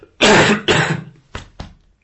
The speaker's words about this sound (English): I have to cough, excuse me.